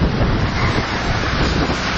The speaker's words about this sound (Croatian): Ovo je zvuk olujnog vjetra koji je sinoć poharao Banja Luku, no ni zvuk ne može dočarati šta se sve dešavalo.